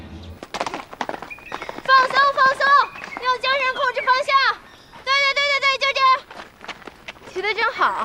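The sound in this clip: Horse hooves clip-clop as someone learns to ride, with a steady beat of hoofbeats under sustained tonal sounds.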